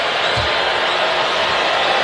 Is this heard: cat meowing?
no